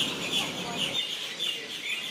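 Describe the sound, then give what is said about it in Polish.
Many birds chirp and call on the main beach promenade at Cronulla near Sydney, a dense, shrill chorus of overlapping tweets that runs throughout. “Kolejna wysiadka z promu i tu chyba nadaje ptasie radio.”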